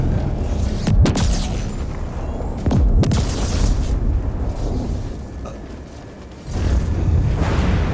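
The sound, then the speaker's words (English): Grenade explosions in a video game, a couple of heavy, deep booms that burst out and decay over a constant noisy rumble, with another loud surge near the end. “Oh, there's grenade. Oops, there what's out? How did I... So G is grenade, yep.”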